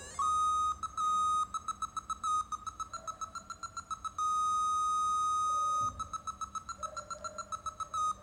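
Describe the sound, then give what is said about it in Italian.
Electronic beeps from an obstacle-detecting scanner swept across furniture toward a corner. Held tones alternate with fast runs of short pulses, and the pitch shifts slightly between passages. “man mano che sposto lo scanner verso destra ho un tono minore perché sto raggiungendo l'angolo.”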